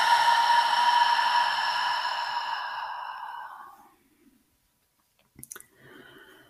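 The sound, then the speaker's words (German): A long, deliberate exhale through open lips during a yoga breathing practice, breathy and slightly voiced like a sigh. It fades steadily over about four seconds into silence, followed by a faint brief rustle. “diesen bewussten langen Ausatmen und erlaube, dass der Atem die Achtsamkeit in diesen Moment zurückbringt. Gern auch durch die geöffneten Lippen.”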